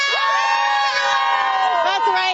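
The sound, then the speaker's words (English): Sports fans cheer before an evening hockey game at the Canadian Tire Centre plaza. Loud, sustained crowd shouting carries a few high voices that stand out above the roar. “Take a look at this wonderful crowd, Patricia. They are ready for the game this evening.”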